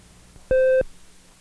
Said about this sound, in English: Now at the end of a side, you'll hear this beep,